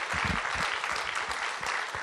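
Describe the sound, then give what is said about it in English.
Applause from an audience at a church gathering, honouring a guest speaker: a dense, steady patter of many hands for two seconds, with soft low thumps mixed into the clapping and no clear voices. “Anname talle aplausid, on äge kutt.”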